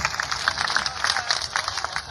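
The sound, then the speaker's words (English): Applause from a concert audience for a guitarist: overlapping claps in a moderately loud, slightly uneven patter that keeps going throughout. “How about a big round of applause for Mr. Scott Edwards?”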